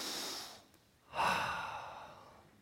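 An audience at an Iranian church's Easter service takes a deep breath, a soft intake followed by a louder, long, airy exhale that fades slowly, faint and with no talk over it.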